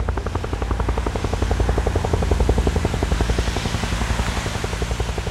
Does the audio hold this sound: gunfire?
no